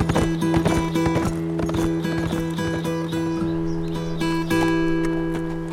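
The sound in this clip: Horse hooves clip-clop as a rider sets off, with many quick, uneven strikes in a continuous trotting rhythm.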